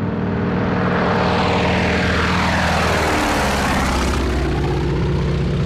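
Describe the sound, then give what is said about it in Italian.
A Lockheed Vega propeller monoplane flies over with a loud, continuous engine-and-propeller drone whose tone sinks noticeably in pitch midway through, then holds steady. “Da lì era decollato a bordo del suo monoplano Lockheed Vega, da solo.”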